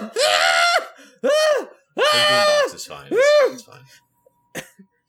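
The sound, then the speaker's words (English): A voice makes drawn-out screeching, moaning noises, imitating a warforged character in a tabletop role-playing game. Four loud tonal bursts with arching pitch are separated by short gaps, then a few faint short sounds follow. “Beatbox is fine. She's just beatboxing.”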